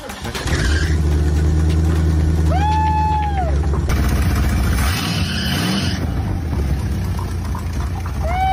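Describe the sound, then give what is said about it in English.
A hotwired car engine turns over and catches, then runs with a loud, steady low drone. Revving swells the pitch up and back down through the middle, and the engine keeps running to the end. “Oh, I guess we'll have to hotwire it. I got my ignition hotwired. Let's see if she'll turn over. Woo! She sounds good.”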